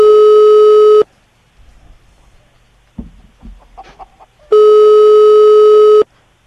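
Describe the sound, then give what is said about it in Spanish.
Two loud, steady telephone ringing tones from a call that goes unanswered, each lasting over a second, separated by a silent gap of about three and a half seconds with only faint background noise between them. “No nos cogen el teléfono.”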